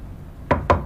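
Knocking on a door as someone calls for it to be opened: three sharp, hollow knocks in quick succession, evenly spaced and fairly loud, with no voice over them.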